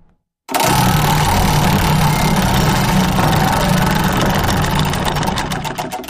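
A prize wheel spins with a dense, loud rattle of rapid ticks that starts abruptly and holds steady, then slows into separate clicks near the end.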